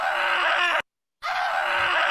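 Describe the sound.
Scream sound effect: two long, harsh, sustained screams at steady loudness, separated by a brief moment of silence.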